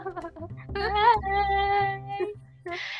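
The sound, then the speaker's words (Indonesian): A pet cat meows, a drawn-out cry with an arched, wavering pitch that rises and falls, followed by steadier tonal calls, over a quiet background. “kucing aku rusuh banget oh. hari ini ditemenin kucing ya”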